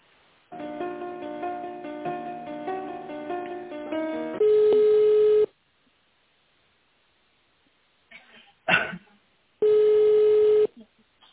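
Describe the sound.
Telephone line tones during a call transfer: a short run of stepped melodic tones, then a long steady beep, a silence broken by a brief burst, and a second long steady beep, all thin and band-limited.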